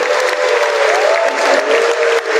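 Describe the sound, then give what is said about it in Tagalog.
Applause from an audience at a send-off event for Asian Games athletes and coaches: dense, steady clapping from many hands that continues without a break. “Palakpakan po natin ang ating mga sarili.”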